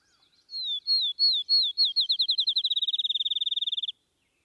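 A grass finch of upland pastures sings alone: a few slurred, high whistled notes that quicken into a rapid, even trill, the whole phrase lasting about three and a half seconds and then stopping cleanly.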